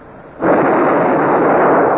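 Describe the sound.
A ship's cannon broadside fires as one sudden loud boom that swells into a sustained, rumbling roar of blast noise, with no voices.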